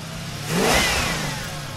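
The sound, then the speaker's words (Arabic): After stubborn attempts, a dead man's car engine starts in Salzburg, the revs climbing into a swelling roar midway before settling into a steady growl. “في النهاية استجاب المحرك وتصاعد الهدير المحبب للنفس،”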